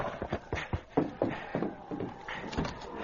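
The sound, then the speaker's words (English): Hoofbeats of a horse ridden hurriedly up to a cafe and reined in, a series of irregular thuds and scuffs, loud and close together at first, then fewer and softer. “Later that afternoon, Bert rode hurriedly up to the cafe and dismounted. Oh, ho there. Ho, ho, boy. Ho.”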